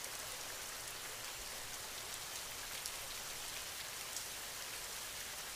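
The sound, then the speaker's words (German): Raindrops falling in a steady, even patter that forms a dense hiss with no pauses, moderately soft and alone, without any voices. “Und nimm den Rhythmus der Regentropfen wahr. Wie die Regentropfen tanzen und deinen Geist und deinen Körper heilen.”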